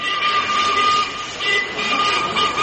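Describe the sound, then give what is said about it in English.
Twin-headed freight locomotive pulling out of Garston sidings in Liverpool in 1963, heard as a loud, steady churning rumble and hiss with a sustained whining tone and gently pulsing surges. “the great sound of a twin-headed freight locomotive pulling out of Garston sidings”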